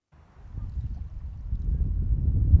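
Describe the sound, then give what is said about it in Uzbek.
Soft low rumble of wind and water along a calm Atlantic Ocean shoreline at a marina, a steady muffled wash that swells slightly toward the end, with no voices. “Atlantika okeani bo'yidagi Marina Bay degan joydamiz. Sohil bo'yi, sokin.”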